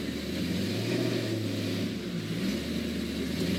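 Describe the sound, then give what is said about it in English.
A car engine drones loudly and continuously while the car is driven on a city street, with a deep rumble throughout and only slight shifts in pitch; no one speaks. “This is going to be a gas. Listen to that motor.”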